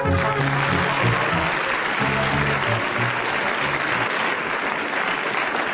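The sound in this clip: Studio audience applause at a recorded news quiz: dense, steady clapping from many hands, loud and continuous from start to finish with no pauses.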